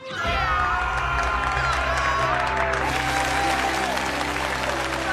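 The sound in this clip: Dense applause and cheering from a crowd as the winner of a singing contest is announced. The clapping is loud and sustained, with shouting voices mixed in throughout.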